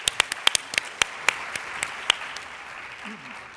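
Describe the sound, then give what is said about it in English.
Sparse audience applause welcoming a professor to give a presentation: about ten sharp, distinct claps in quick succession that thin out and fade, then a voice begins near the end. “So let's put our hands together and welcome Professor Canning.”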